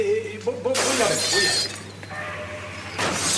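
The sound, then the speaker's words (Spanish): A table being knocked over and a vase breaking: a sudden loud crash of shattering glass, then rattling debris that fades, and a second sharp burst of breakage near the end. “Mesa derribada, jarrón roto.”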